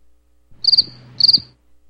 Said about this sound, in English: where's my freaking crickets?